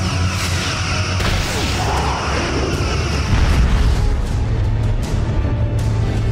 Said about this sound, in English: Fire phasers!